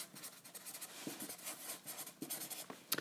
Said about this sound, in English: So I'm writing that in. That is the 9th.